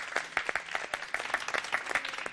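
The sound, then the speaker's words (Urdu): Audience applause welcoming a team at a team competition event, a lively run of many claps with irregular louder peaks and no voices. “تالیوں سے استقبال کیجیے گا ایک بار پھر سے.”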